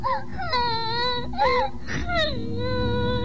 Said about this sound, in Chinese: 她伤心极了，坐在井边哭啊哭啊